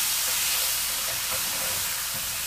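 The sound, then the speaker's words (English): Butter sizzles on a cooker, giving a loud, steady hiss that carries on unbroken throughout. “Something I hate about butter. It evaporates so fast. You having fun with them butters on the cooker in there?”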